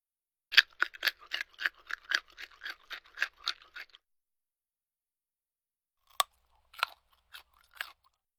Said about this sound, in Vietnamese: Câu ví dụ của anh Duy Khánh có thể hiểu là thịt xông khói đã được nướng giòn tan, dùng để diễn tả thứ gì đó không còn nước, nhẹ và giòn khi cắn.